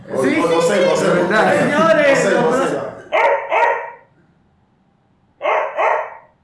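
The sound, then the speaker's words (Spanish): A person imitates a dog barking: after a stretch of talk, the voice gives two quick barks, pauses briefly, then gives two more short barks. “ahora mismo te hago un sonido de perro y va a ser muy diferente al que le acaba de hacer.”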